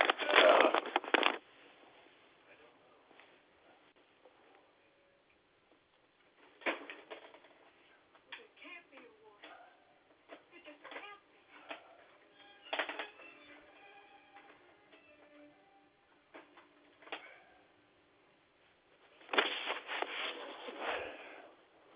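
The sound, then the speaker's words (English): Plastic cards are rubbed and clicked while someone searches through a wallet during a phone call, faint scattered rustles and ticks coming in a few short bursts separated by quiet gaps. “I'm here. I'm just going through my cards.”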